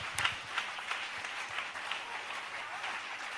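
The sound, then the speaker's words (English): An audience claps their hands, quiet and continuous throughout. A few slightly louder claps stand out near the beginning before the sound settles into an even patter. “Oh, you can clap your hands.”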